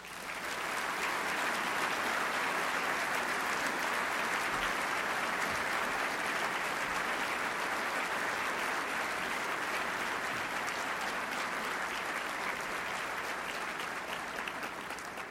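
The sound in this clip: An audience greets a former Speaker of the House with long, sustained applause, a thick and even wash of clapping that stays loud for about fifteen seconds without letting up.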